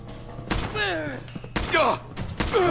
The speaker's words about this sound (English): Dang, that took three shots. I only have 8 rounds of 5.56 left.